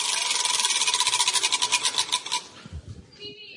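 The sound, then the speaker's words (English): Category wheel spun during a trivia game: a rapid, even run of ratcheting clicks that gradually slows, thins out into a few separate knocks and stops. “Give it a spin. Let's see what your category is.”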